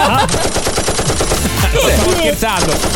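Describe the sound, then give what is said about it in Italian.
A submachine gun sound effect rattles off rapid, loud bursts of automatic fire, the shots packed tightly in a fast, continuous rhythm. “Abbiamo una pistola, un qualcosa, un mitra. Giusto per sistemare la questione”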